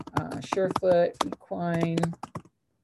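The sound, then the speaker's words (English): Typing on a computer keyboard while searching a website for a reseller listing, with quick clicking keystrokes in short bursts beneath a person talking. “If I can type under sellers.”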